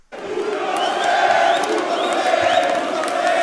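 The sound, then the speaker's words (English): Netanyahu supporters cheering on election night after his April re-election win: loud crowd cheering that bursts in abruptly and holds steady, with whoops and shouts rising over the roar. “The night Netanyahu won re-election in April, his supporters cheered, "He's a magician."”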